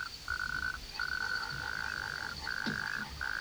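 Toad croaking in a series of long, steady, even-pitched trills separated by brief pauses, over a thin constant high whine and with no voices.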